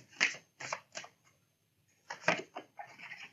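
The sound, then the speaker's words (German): Playing cards are shuffled and flipped during a card reading, giving quick, crisp riffling bursts in two clusters separated by a short quiet pause. The sound is soft and close, with no talk over it. “Man sagt, wenn die Karten flippen, dann kommt da was Gutes bei rum.”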